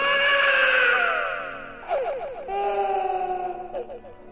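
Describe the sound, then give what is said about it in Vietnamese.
A small child cries and screams in fear, alone in the dark at night. A loud, sustained, high-pitched wail gives way to shorter, wavering cries. “Nó sợ hãi, khóc thét lên.”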